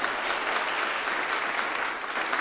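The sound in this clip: Audience applause greets a guest speaker at a First Presbyterian church gathering during a capital campaign event. It is a dense, steady wash of many hands clapping that holds at an even level from start to finish.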